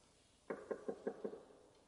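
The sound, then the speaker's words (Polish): Five sharp knocks on a door in a quick, evenly spaced run, each hit crisp and fairly loud, with nothing else heard around them. “Ktoś puka do drzwi.”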